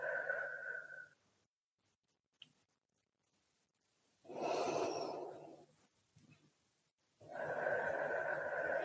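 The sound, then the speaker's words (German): Slow, deep breathing in and out, heard as a few long, soft, airy breaths separated by quiet pauses, faint and with no talk. “Atme noch dreimal tief ein und aus.”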